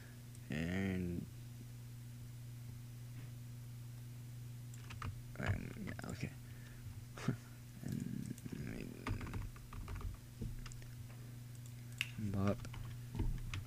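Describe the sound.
Computer keyboard typing while copying and pasting text: scattered soft key clicks under people talking, with a steady low hum throughout.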